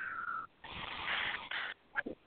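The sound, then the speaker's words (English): A deep breath drawn in through the nose, then let out through the mouth: a soft, airy inhale with a faint whistling edge, a longer breathy exhale, and a couple of short puffs at the end. “Another big breath in through your nose, out through your mouth.”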